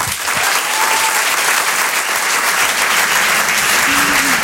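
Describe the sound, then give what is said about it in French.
Loud, dense applause rises from the audience at a comedy show, an unbroken wash of clapping that holds at full strength for the whole stretch. “On peut l'applaudir très très fort, Elias Zoghani. Bravo Elias.”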